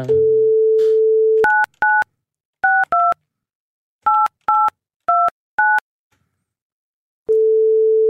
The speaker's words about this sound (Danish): Jeg kom til at trykke ring for tidligt.